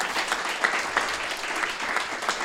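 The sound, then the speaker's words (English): Light applause from a group of people, a soft, steady patter of clapping with a few sharper claps standing out, fairly quiet throughout. “You should clap.”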